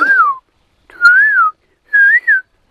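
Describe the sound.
A person whistles the morning spring song of a small all-black songbird: three short, clear whistled phrases with gentle wavering pitch, separated by brief gaps.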